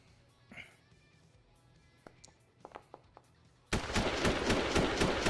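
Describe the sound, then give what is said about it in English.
Gunfire effect for a shot from an AR rifle during a tabletop role-playing game: a few faint clicks, then a sudden loud burst of dense, crackling noise that holds to the end. “So he's going to take a pot shot with the AR.”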